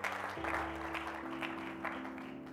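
Audience at Grace Point applauding to welcome a family, a steady wash of clapping from many hands with sustained low instrumental tones underneath.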